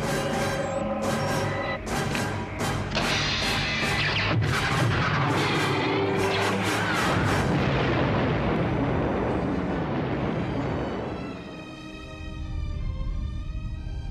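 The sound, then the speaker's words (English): A super laser fires amid explosions in a video game: a long, loud, sustained blast of booming roar and whining tones that thins out near the end before a low rumble swells again. “Admiral, fire the super laser.”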